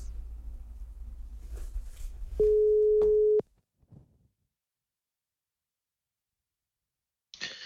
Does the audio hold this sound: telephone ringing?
yes